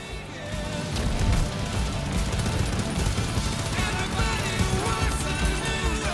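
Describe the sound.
Rapid gunfire in the Fortnite video game, one player firing a gun continuously on a controller. The shots blur into a dense, sustained, loud rattle that runs the whole way through, with other game sounds mixed in.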